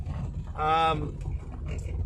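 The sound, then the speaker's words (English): A lowered car pushes through a river crossing swollen by rain: a low, continuous rumble, with a brief strained engine drone swelling midway. “That was a bit deeper than I thought it was. My car is so low. It's been lowered and, fuck yeah, it barely makes it out of the river crossing because it's been raining.”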